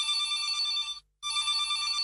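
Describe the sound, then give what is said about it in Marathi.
A telephone rings for an incoming call. Its high electronic trilling ring sounds twice, with a short silent gap between the two bursts, moderately loud and with no voices. “Sir एक call येतोय तो घेऊया आपण.”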